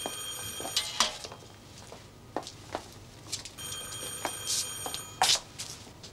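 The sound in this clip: An old telephone bell ringing in short, repeated bursts of bright metallic jangling at a faint level, separated by quieter pauses with soft background noise.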